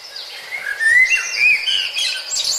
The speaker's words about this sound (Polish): A nasz kos co nam powie?